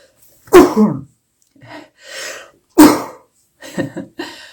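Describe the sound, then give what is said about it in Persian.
Deep breaths during a breathing exercise, a few loud, rushing breathy bursts with softer, shorter breaths between them and silence in the gaps. “سه تا نفس بکشید و هر نفسی از نفس بعدی عمیقتر میشه و جای ششهاتون بازتر میشه”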